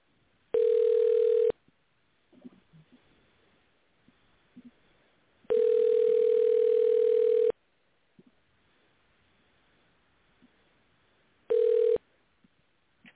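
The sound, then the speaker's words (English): A telephone tone sounds while a caller is being dialed in: three steady, loud tone bursts, the middle one longest and the last brief, with faint noise in the gaps. “All right, now we'll go ahead and dial him in.”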